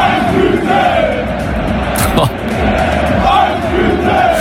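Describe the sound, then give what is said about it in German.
Roaring stadium crowd of 45,000 football fans at a match between an amateur side, HEBC, and BVB, a dense, loud, sustained wall of cheering and chanting voices that holds steady for the whole stretch. “die Stimmung im Stadion vor 45.000 Fans war einfach so krass, hört mal selbst.”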